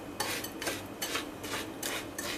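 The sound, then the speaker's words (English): A spoon scrapes around a bowl, mixing melted butter into crushed biscuits, in six soft, evenly spaced strokes with a gritty, rasping texture. “Just pour the melted butter straight in and just mix it together.”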